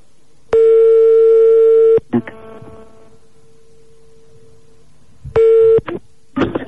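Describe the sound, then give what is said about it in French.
Telephone line tones as a call is placed: a long, steady, buzzy tone and then a quieter stretch with faint clicks. A shorter burst of the same tone follows, with brief sounds after each tone. “On appelle donc un marabout pour voir si David a du talent.”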